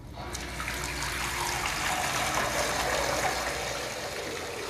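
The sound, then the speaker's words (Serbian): Tap water runs into a bathtub as a steady, continuous rushing hiss that holds an even level from start to finish, with no voices. “Odlazim u kupatilo, puštam vodu da teče.”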